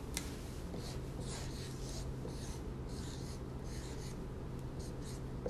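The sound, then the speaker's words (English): Marker drawing a car battery on a board: many short scratchy strokes in irregular bursts, faint against steady low background noise. “I'm drawing on the board a car battery.”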